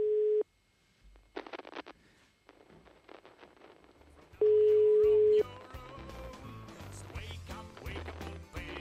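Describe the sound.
A telephone line rings during a call as two steady, mid-pitched electronic tone pulses: a short one at the very start and a longer one of about a second later on, with other busy sounds filling the gaps and following.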